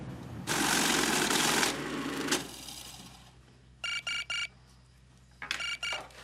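A telephone call is placed: after a noisy rustling burst, a phone gives short clusters of electronic ringing pulses in two separate groups, with quieter hiss between them.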